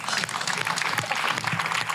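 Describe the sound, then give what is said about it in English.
An audience applauds with dense, steady clapping that stays fairly loud and continuous throughout, with no clear pauses. “You're going to applaud for everything these two say.”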